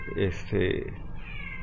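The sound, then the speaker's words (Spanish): A cat meowing: two short, clear meows in quick succession, followed by quieter background sound. “mi gatito se quiere comer”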